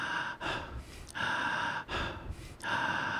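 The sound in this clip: Continuous breathing, each inhale flowing straight into the exhale with no pause between them; a few full breath cycles of airy, fairly loud breath noise, heard alone without talk.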